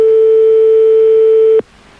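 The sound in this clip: A telephone line tone sounds on a radio call-in line. A single steady, pure mid-pitched tone holds loudly for about a second and a half, then cuts off abruptly, leaving faint line hiss.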